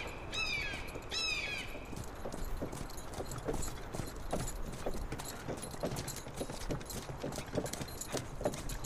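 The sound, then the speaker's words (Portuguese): Hooves clop in a steady plodding rhythm as an ox pulls a cart along, many beats over a constant noisy background, with a couple of short bird calls near the start. “Vocês estão andando na carroça.”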